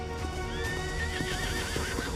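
A horse neighs while being ridden through trees. It gives one long, wavering whinny that rises and shakes in pitch, over a steady background hum with faint hoof clops.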